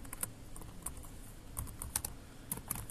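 Fingers type on a computer keyboard while entering an app description, producing a fairly faint, quick, irregular patter of many sharp key clicks with brief pauses between bursts.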